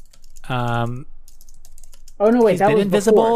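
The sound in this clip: Computer keyboard typing as someone writes down a note. Soft, quick clicks sit in a quiet gap between a hummed voice and a stretch of talk.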